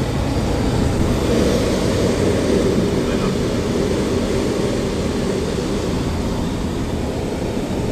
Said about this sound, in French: Tant qu'il n'a pas décollé, on ne peut pas se couper. Et voilà, il vient de décoller.